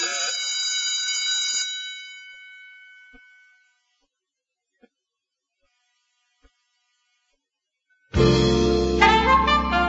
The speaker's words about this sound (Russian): И тут же после этих слов зазвонил звонок на урок.